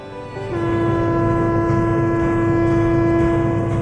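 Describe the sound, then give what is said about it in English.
A train horn sounds at a port waterfront, a loud, steady, low tone that starts after a brief moment and holds to the end over a constant rumble. “That's the sound of the waterfront and the subject of a good deal of controversy this lunchtime.”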